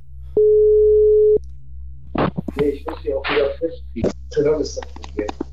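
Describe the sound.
A telephone ringback tone sounds once as a call is placed: a single steady, mid-pitched tone lasting about a second. After a short pause, people start talking.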